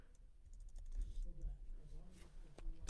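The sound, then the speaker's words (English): Fingers type on a computer keyboard into ChatGPT, a quick run of many clicking keystrokes under a talking voice. “I'm just gonna type in why are you, and then I'm just gonna type a whole bunch and see what it does.”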